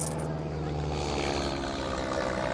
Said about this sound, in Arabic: طيارة، لك طيارة، احتموا، لك اهربوا.